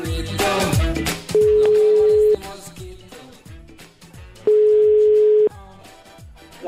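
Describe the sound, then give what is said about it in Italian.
A telephone ringback tone sounds as a call is placed, two steady, even tones of about a second each separated by a pause of a few seconds. “Gianroberto Casaleggio, guru dei 5 Stelle, chiama Dario Fo.”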